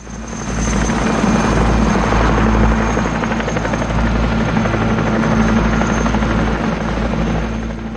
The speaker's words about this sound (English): By the island, three choppers speed over the ocean.